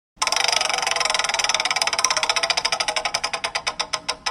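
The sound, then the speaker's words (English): A game show prize wheel spins with a rapid, loud stream of ratcheting clicks. The clicks gradually slow and spread into distinct ticks as the wheel winds down. “So first thing we're going to do is going to spin the wheel to get you a category. So let's go ahead and spin the wheel.”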